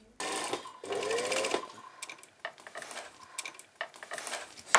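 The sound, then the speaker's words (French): Sewing machines run in closed shops in Lisieux, Normandy, where masks are being made. A steady whirring stitch run is followed by several shorter bursts of needle chatter, faint and mechanical. “En Normandie, à Lisieux, derrière les rideaux baissés de ces magasins fermés, les machines à coudre tournent à plein régime.”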